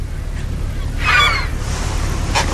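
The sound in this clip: A honking fowl call from farmyard poultry, hens and ducks, rings out once near the middle, a brief harmonic cry over a steady, rustling outdoor background noise.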